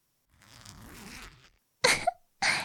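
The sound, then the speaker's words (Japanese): A clothing zipper pulled down in one smooth, soft rasp lasting about a second, followed after a pause by two short, sharper bursts of noise. “ほら、ファスナー、下げますよ。”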